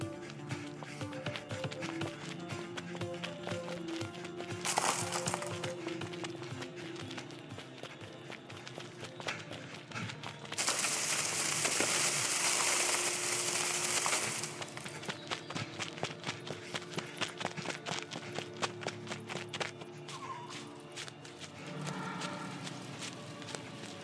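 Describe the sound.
Footsteps of a group running together as a pack at night in the dark, many quick steps in a steady, rapid rhythm, with a brief rush of noise midway.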